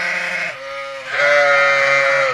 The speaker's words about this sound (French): Ces deux béliers boulonnais de 9 mois et 5 ans assurent la reproduction de l'espèce auprès de 200 brebis avec 6 de leurs congénères.